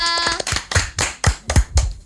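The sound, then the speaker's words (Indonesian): Rhythmic hand clapping as thanks to a storyteller on a children's programme: a short tonal note first, then a steady series of evenly spaced, sharp claps in a regular beat. “Tepuk tangan untuk kakak Tika.”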